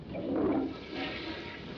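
A toilet flushing: a faint, swirling rush of water that swells in the first second and then continues at a softer, steady level.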